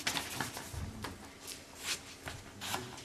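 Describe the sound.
Sheets of paper are folded in half by a group, written side inward, producing soft, faint rustles and creases in a few scattered bursts.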